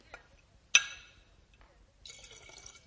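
Vodka poured back into a bottle: a sharp bright clink, then a steady trickling pour of liquid near the end, faint and with no talk.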